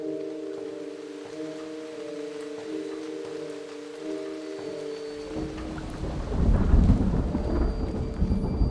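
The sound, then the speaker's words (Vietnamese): Rain and thunder at nightfall on a deserted road: after a sustained tonal drone fades, a dense hiss of heavy rain builds with deep rumbling thunder that swells and lingers. “Trời mưa từ sập tối, ngoài đường vắng tanh.”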